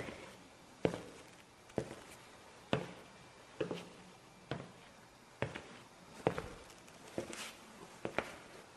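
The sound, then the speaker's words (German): Footsteps of someone walking toward something on a moor: a steady, evenly paced series of soft thuds on the ground, each followed by a brief scuffing, fairly faint and heard alone without voices. “Also lasst uns nun 10 Schritte auf den Moloch zumachen.”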